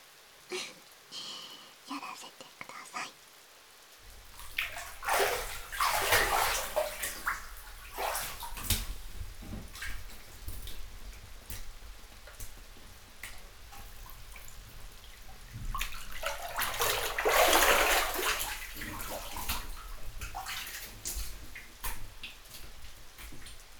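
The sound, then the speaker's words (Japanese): Water pours in a bath while someone's back is being washed: two long, loud gushing pours separated by a stretch of quieter splashing, with small ticks and drips between them. “うちがお背中流してあげましょうか。”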